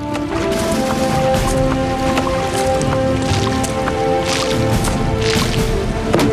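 Petrol splashes and drips over the top of a tree in a steady wet sloshing, with scattered squishes and drips throughout.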